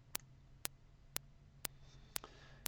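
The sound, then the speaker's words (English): A test click plays through earphones in a hearing demonstration: six sharp, identical clicks repeat at a steady rhythm about half a second apart over a quiet background. “Now that it's equal volume in both ears, if you listen to one or the other, you should hear the click in both ears.”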